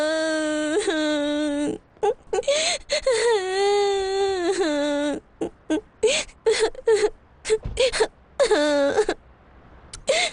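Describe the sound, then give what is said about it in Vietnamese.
A woman crying: long, wavering wails give way to many short, broken sobs and whimpers with brief gaps between them. “trời, đừng khóc nữa. Cái gì khóc hoài vậy?”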